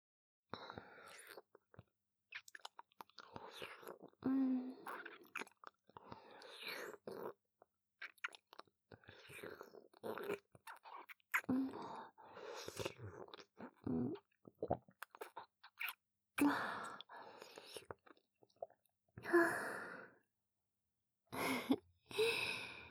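Wet mouth sounds of someone drinking and swallowing a thick, sticky liquid: many intermittent slurps, gulps and smacks with breathy sighs between them, close and fairly soft.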